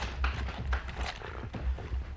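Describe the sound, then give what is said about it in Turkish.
Hoofbeats of cavalry horses being brought up for a company of soldiers to mount: a few dull, low thuds at uneven intervals over a steady, noisy background. “Nerede bizim atlar? Evladım çek atları.”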